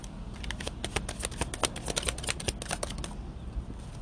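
Tarot cards being shuffled and drawn during a card reading: a steady run of many quick, papery flicks and snaps at a moderate level, with no voices.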